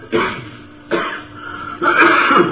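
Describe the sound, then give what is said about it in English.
Rough throat clearing comes in three raspy, guttural bursts separated by short pauses, the third burst longer and fuller than the first two. “you got something in your throat?”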